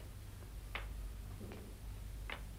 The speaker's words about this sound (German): Hörst du? Tick, tock, tick, tock. So machen die Krücken.